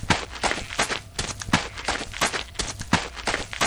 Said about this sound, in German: Ruben rennt zu den Zelten hinüber.